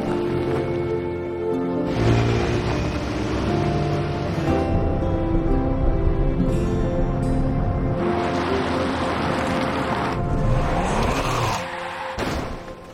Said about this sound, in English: She drives off